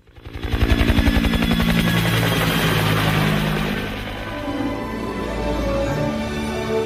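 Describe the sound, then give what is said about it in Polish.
A sightseeing helicopter over glaciers on New Zealand's west coast gives a rapid, loud rotor thumping over an engine whine. The sound builds within the first second, holds steady, then eases slightly later on. “a żeby je dobrze zobaczyć, wsiada do helikoptera.”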